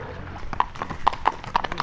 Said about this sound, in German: Eins sitzt hoch zu Ross, die anderen beiden Pferde werden geführt und rein geht's ins Wasser.